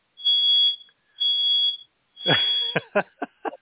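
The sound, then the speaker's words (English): A smoke alarm goes off while baguettes are baking, giving a few long, shrill, steady beeps followed by several short, sharp bursts. “And that would be the smoke alarm.”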